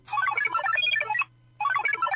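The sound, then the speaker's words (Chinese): Mobile phone ringing with a bright, melodic electronic ringtone. A busy phrase of chiming notes plays loudly, breaks off into a short silence, then starts again. “科莱正想给法西打电话，手机却响了起来。”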